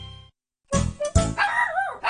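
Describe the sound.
A dog barks in a few short, sharp yaps that run into a higher, wavering whine-like call, fairly loud and heard alone after a brief pause.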